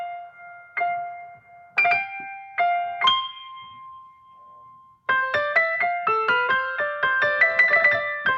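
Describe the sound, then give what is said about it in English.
Piano notes are doubled an octave and a fifth apart, imitating an organ stop. A few slow, separate struck notes come first, one held, then a quicker run of layered notes, all quiet and alone. “Which is this strange kind of mysterious organ stop effect.”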